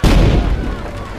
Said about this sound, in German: Salven aus den Kanonengeschützen werden an Bord abgefeuert.